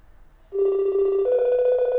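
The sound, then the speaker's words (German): A telephone ringtone for an incoming video call: after a brief quiet moment, a steady electronic tone rich in harmonics begins, then steps up to a higher pitch partway through and holds there. “Telefon klingelt. Seine Eltern rufen per Videocall an.”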